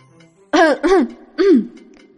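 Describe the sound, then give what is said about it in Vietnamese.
A man clears his throat in three harsh, guttural bursts: two close together, then a third after a short pause, loud and heard alone. “Triệu Phổ ho khan một tiếng, túm lấy hai tiểu hài nhi”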